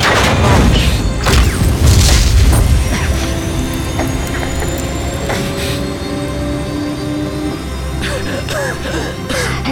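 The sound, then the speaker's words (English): An escape pod launches in a science-fiction setting: a heavy low boom and rumble with mechanical clanks at the start, then a steady hum with thin, slowly rising whines and scattered clunks. “Escape pod launch in 10 seconds.”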